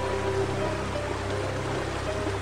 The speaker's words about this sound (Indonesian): Arus sungai ini deras sekali.